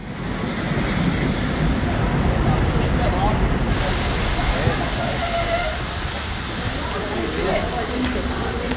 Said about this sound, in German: Dieser eingefahrene Schnellzug fährt weiter nach München-Gladbach.